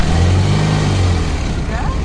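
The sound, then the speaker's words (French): Car engine running steadily while driving through central Ramallah, a continuous low rumble that stays even for the whole clip. “Anouar passe me chercher en voiture dans le centre de Ramallah.”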